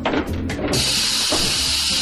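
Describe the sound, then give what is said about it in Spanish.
Steam escaping as an oven is opened: a few brief mechanical knocks and rustles come first, then a loud, steady, airy hiss that carries on to the end. “¡Al abrir el horno!”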